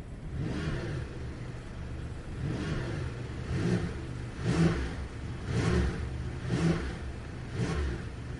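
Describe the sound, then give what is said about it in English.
A Porsche 911 T Hybrid accelerating on the road in Dubai. Its mid-pitched engine note swells and eases in repeated surges of revving over a steady underlying rumble. “let's get this new for 2025-26 Porsche 911 T Hybrid out on the roads here in Dubai in this real world road test.”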